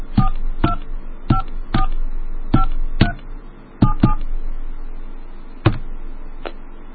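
Touch-tone dialing of a toll-free 888 phone number: a series of short, sharp dual-pitched beeps, mostly clustered early and then more widely spaced, with no voices.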